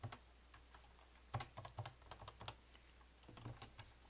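Typing on a computer keyboard while entering programming code, with many quiet, irregular key clicks in uneven clusters and a few slightly harder strokes, heard alone without talk.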